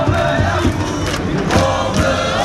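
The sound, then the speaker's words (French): A dense, impatient crowd waits outside city hall before a European trophy celebration on the balcony. The crowd noise is loud and continuous, with a brief swell of shouting partway through. “Et dehors, le public s'impatiente.”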